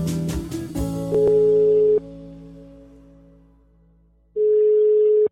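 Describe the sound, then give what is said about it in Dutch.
Ringback tone on a telephone line while calling someone: two steady mid-pitched tones, each about a second long, separated by a long silent gap and preceded by a few brief clicks. “maar ik ga hem even bellen”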